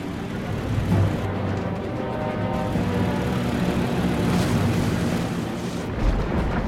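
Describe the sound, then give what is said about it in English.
Heavy engines of the seaplane Friendship roar as it strains to take off from a calm lake, giving a steady, low, rumbling drone that stays loud and even from start to finish. “The plane skims across the calm lake, the word friendship emblazoned on the fuselage. Bill and Slim exchange a worried glance as the heavy aircraft refuses to get airborne.”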